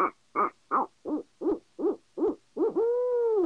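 Owl hoots blown on a hand-cupped owl call: eight short, evenly spaced hooting notes come first, then one long, drawn-out hoot. The tones are clear and moderately loud, with no other sound.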